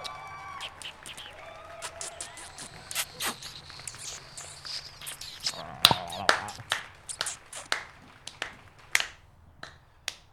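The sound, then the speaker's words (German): Clapping from balconies after a wedding ceremony in South Africa: sparse, scattered claps that become sharper and more frequent in the second half, faint overall, with separate hand strikes standing out rather than a dense wash. “Ein romantisches Klatschen ertönte wieder von den Balkonen, nachdem sie nun getraut waren.”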